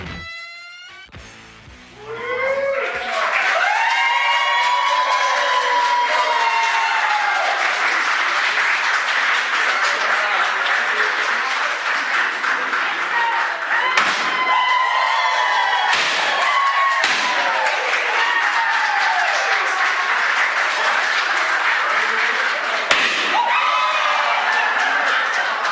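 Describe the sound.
Cheering and applause as a Manitoba lottery winner accepts a $46 million lotto check. After a short quieter opening, loud clapping, whoops and shouts swell in and hold steady to the end, with occasional thumps.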